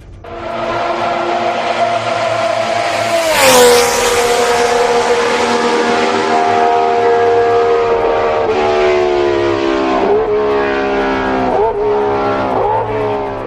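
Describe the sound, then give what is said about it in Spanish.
A racing car engine screams at full throttle through the fast left-hand Tamburello curve. The high-revving whine is loud and sustained, with a few brief dips in pitch toward the end, and no voices. “Un rápido giro de izquierdas y si llevas el coche bien arreglado se puede hacer a fondo, como si fuera una recta.”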